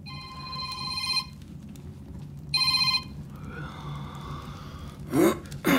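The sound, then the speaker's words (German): A telephone rings in a 1960s German radio play: two bursts of bright, high electronic ringing over a low background hum, first a longer ring, then a shorter one after a pause. “Und mein Telefon, entschuldige mal eben.”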